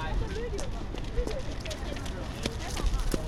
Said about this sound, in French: On est très intéressé par le bruit de vos baskets.